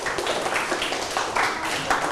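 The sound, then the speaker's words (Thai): A group of people clapping their hands during a group activity, producing a fairly even, continuous patter of claps for about two seconds. “7ยิ้มเท่ากับกลุ่มที่3ปรบมือครับ”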